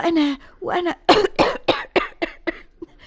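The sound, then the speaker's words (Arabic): A fit of harsh, throaty coughing comes as a quick series of many hacking bursts, strongly voiced and fairly loud, each cut off sharply before the next. “وأنا من كثرة هذا الانشغال تفاجئني أحيانا نوبات السعال، فأضطر أن أقول إلى الغد إذن يا فيلسوف.”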